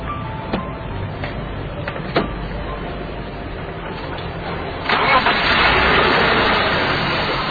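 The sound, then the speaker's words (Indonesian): A car engine that is kept well maintained starts up after a few sharp clicks. It catches with a swelling roar midway, then settles into a steady, even idle that continues to the end. “Kalau mesin tiap hari saya rawat, Bos. Bener, Bos? Bagus kan suaranya bersih kan, Bos?”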